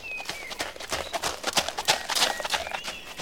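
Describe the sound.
Hoofbeats of a knight's travelling horse: a quick, steady clip-clop with many sharp, moderately loud strikes and no talking.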